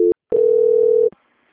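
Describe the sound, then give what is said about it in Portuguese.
A telephone call-transfer tone plays on a bank call: one short electronic beep, a brief silence, then a single steady mid-pitched tone lasting nearly a second, alone with no talk. “Então, um instante. Transferência.”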